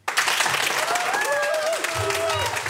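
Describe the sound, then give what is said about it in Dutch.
A studio audience applauds with enthusiasm: dense, steady clapping from a Brabant crowd that holds at a constant level from start to finish, with faint voices beneath. “En u hoorde op de achtergrond het fanatieke Brabantse publiek.”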